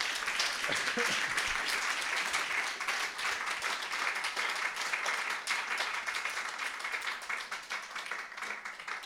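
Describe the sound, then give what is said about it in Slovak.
A church audience applauds, dense clapping from many hands that holds loud and steady for most of its length, then thins slightly toward the end. “Takže poďakujme ešte raz potleskom.”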